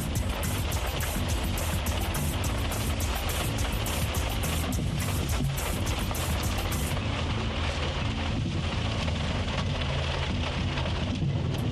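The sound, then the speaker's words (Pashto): Heavy rain pours down in Dallas, Texas, a dense, steady, loud downpour that keeps going without a break, with no voices. “عزیزانو داسې شدید باران دی کله ډېر زیات شي کله کم شي درنو اوریدونکو د تکساس ایالت په خاصه توګه د دالاس ښار دغه هوا نه ده”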